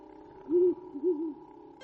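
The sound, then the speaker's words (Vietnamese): An owl hoots in the rear courtyard of a mansion: two soft, low hoots, the second slightly wavering, rise above a faint steady hum. “Tiếng chim cú kêu ở hậu viện phủ tường vang lên dồn dập.”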